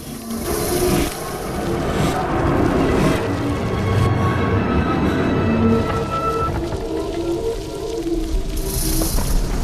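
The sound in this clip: Steady rain hisses for the whole clip, with low, sustained tonal swells drifting beneath it.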